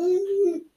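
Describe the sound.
A baby boy playing by his ball pit gives a single brief, whiny babble, held at a steady pitch and then fading out in under a second.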